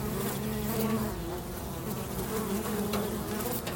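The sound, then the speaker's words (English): A swarm of bees buzzes in a dense, steady drone, with the hum of many wings blending into one continuous, fairly faint wash of sound, without talk. “That's the sound of a swarm of bees, which might not immediately suggest warmth”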